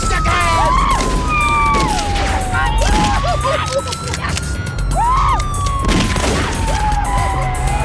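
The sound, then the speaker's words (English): Rapid gunfire from a 1990s crime film shootout crackles in dense, repeated bursts while police sirens wail and sweep up and down beneath it, loud and sustained throughout. “The gunshots are straight from 90s rap music.”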